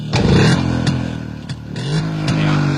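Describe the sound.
A four-year-old Japanese vehicle's engine being started and revved, a steady low droning hum with a few sharp clicks, its tone lifting once as it revs.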